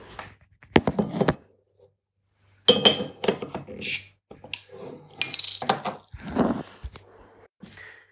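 A 0.33-litre glass bottle is handled and opened, with clinks, knocks and handling thuds in irregular bursts and short hissy flashes partway through, with no talk.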